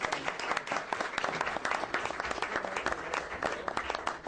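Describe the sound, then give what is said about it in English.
A small round of applause breaks out at a legislative committee meeting to honor a departing state representative. The clapping is dense and continuous, sustained at a moderate, even level throughout with no lull. “So maybe we should give a little tiny round of applause.”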